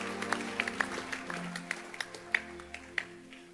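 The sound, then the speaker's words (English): Scattered clapping from a church audience during a service: sharp, quick claps at an uneven rhythm, fairly faint, over a low background murmur. “Oh, clap again.”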